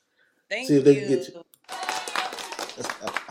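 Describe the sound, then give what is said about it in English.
Television studio audience applause on a talk show, a burst of clapping that follows a brief spoken line and carries on steadily to the end. “Let me get the studio audience to give you a proper introduction.”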